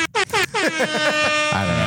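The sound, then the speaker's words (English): Air horn sound effect: a loud, rapid run of short harmonic blasts, some bending in pitch, ending in a longer sustained blare. “I was going to air horn that.”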